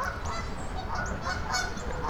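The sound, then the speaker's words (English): Geese honk as a pair of them comes in to land on water, giving a few short, nasal calls scattered over a steady, noisy background. “Oh, here comes two more geese coming in for a water landing. Successful. Yay, splashdown.”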